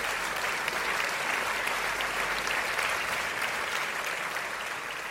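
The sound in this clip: A talk-show audience applauds as a guest is welcomed onto the show, a thick, even wash of clapping that holds steady for about five seconds with no voices over it.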